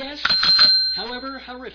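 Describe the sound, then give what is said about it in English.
A single bright bell ding marks a bad pun, ringing clearly and sustaining briefly while a person speaks over it. “that is the sound of the comedy bell.”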